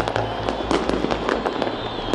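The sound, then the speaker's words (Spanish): Fireworks in Damascus for the first anniversary of the regime's fall: dense, continuous bursts of sharp cracks and pops over a low background rumble. “han celebrado con estos fuegos artificiales el primer aniversario de la caída del régimen”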